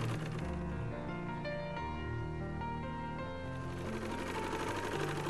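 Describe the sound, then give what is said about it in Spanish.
A sewing machine runs while stitching a cloth cover for a Quran, giving a steady, continuous mechanical whir that stays even in loudness, with no clear pauses. “¿Estás cosiendo una funda para un Corán?”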